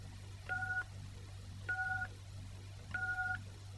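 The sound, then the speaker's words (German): Three telephone keypad tones are entered at an automated mailbox prompt. Each is a short, steady dual-pitch beep of about a third of a second, evenly spaced over a low, constant hum. “Wenn Sie eine Mailbox haben, drücken Sie bitte die Raute-Taste. Bitte die Mailbox-Nummer eingeben.”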